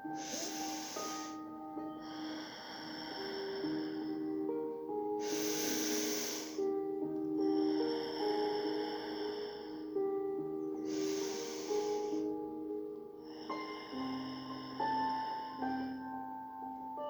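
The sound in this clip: Slow, deep breathing in and out, with a few long, airy breath cycles in steady rhythm under soft, sustained tonal music.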